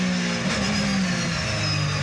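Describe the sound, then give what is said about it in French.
A 560-horsepower car engine pulls hard at about 210 km/h, making a loud, steady, dense drone that holds without a break. “Je peux dire que le moteur il est plein. Les 560 chevaux, on les sent bien.”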